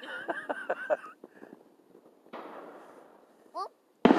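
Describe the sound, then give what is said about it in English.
Fourth of July fireworks going off. A voice is heard at the start, followed by a soft crackling hiss, a brief rising whistle and then a sudden loud bang at the very end. “See, light? Then we hear it sound. It's the same firework”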